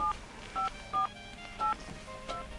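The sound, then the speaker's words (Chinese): Telephone keypad dialing tones: five short two-pitch beeps at uneven intervals, the last slightly fainter, with quiet background noise between them. “等一下 ，OK， 我们再拨一次，再拨一次。”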